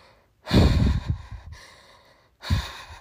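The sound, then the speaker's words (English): A person demonstrates shaky breathing, as felt alongside a racing, skipping heartbeat: a long, trembling, uneven breath that fades out, then a second shorter breath, breathy and fairly loud, with no words. “And it's a shaky kind of breath.”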